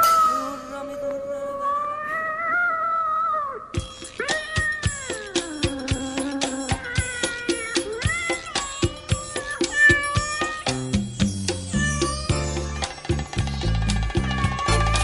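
A cat meows in drawn-out, wavering cries for the first few seconds. A busy stream of bright plucked and percussive notes then takes over and runs to the end.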